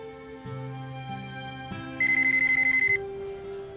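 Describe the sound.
A telephone rings with a quick electronic trill, a burst of about a second of rapid, evenly spaced pulses. It sits over soft, sustained musical tones.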